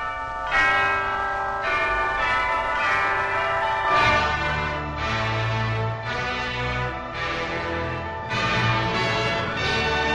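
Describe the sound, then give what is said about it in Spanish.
A program theme tune begins, built from bright chiming bell-like tones that ring out in a steady repeating pattern and sustain over a soft lower accompaniment. “Bueno, pues suena ya la música, suena la sintonía”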